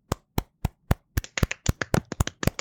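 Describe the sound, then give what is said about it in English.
Quiet, polite golf clap: crisp hand claps, a few evenly spaced single claps at first, then quicker, overlapping claps that build into a light, many-clap patter. “Golf clap.”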